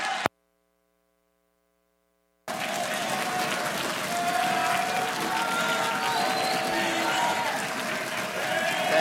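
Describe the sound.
A Pacific Baptist church audience applauds to welcome a visiting preacher: after a couple of seconds of silence, loud, sustained clapping starts abruptly and continues steadily to the end.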